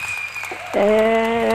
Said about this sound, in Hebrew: קודם כל, בואי תראי, מחיאות כפיים.